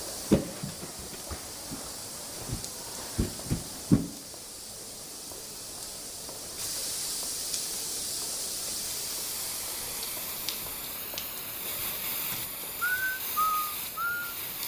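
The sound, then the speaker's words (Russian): An aerosol spray can is emptied in one long, steady hiss that runs to the end, preceded by a few short, sharp clicks. “Баллончик заканчивается.”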